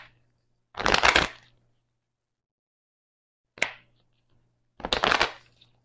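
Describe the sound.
Three short bursts of papery riffling as playing cards are handled and shuffled. The first and last bursts are longer, and quiet gaps separate them.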